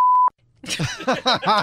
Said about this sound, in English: That's all right. We beeped it.